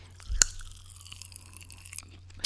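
Popping candy being chewed in the mouth: one sharp crunch near the start, then faint, scattered crackles and pops that stay quiet throughout.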